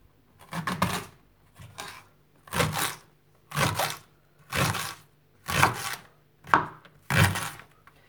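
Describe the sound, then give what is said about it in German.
Knife chopping washed, trimmed spring onions into half-centimetre-thick rings, heard as a steady series of crisp cutting bursts at roughly one per second, with no voices. “schneidet sie in 1/2 Zentimeter dicke Ringe”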